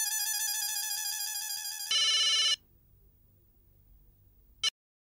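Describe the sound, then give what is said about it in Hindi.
Electronic telephone ring heard while an outgoing call is placed: a loud, steady musical tone in two segments lasting about two and a half seconds, then near silence, then a brief chirp near the end. “मैं अभी अब्दुल को phone करता हूँ। लगा लगा।”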